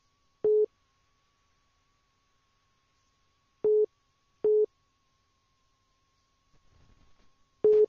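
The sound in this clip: Telephone tones after a dropped phone call: four short, clean mid-pitched beeps at uneven intervals, separated by silence and heard alone without voices.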